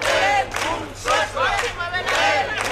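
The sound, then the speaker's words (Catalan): About a hundred homeless protesters chant outside Girona city hall, their voices joined in short, rhythmic chanted phrases that come in bursts with brief dips between them. “Aquest és el so de la manifestació de Sense Sostres que hi ha hagut davant l'Ajuntament de Girona, que ha reunit un centenar de persones.”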